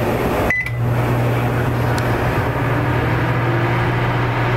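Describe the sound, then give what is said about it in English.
A microwave oven starts after its start button is pressed, with a short click and beep followed by a steady, low electrical hum that runs on alone. “I close the oven. Now it won't start until I hit the start button, which is in the lower right-hand corner. I'll press it now.”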